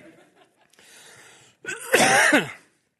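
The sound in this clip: A person clears a dry throat with one loud, harsh, rasping effort lasting just under a second, after a brief stretch of faint sound.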